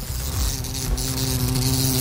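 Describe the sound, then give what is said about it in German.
A wasp buzzes in a continuous droning hum, a steady insect whine with slight wavering in pitch throughout, without voices. “Wenn ihr am besten mit der Wespe umgeht, dass ihr nicht gestochen werdet, das geht als nächstes hier auf Radio Grischa.”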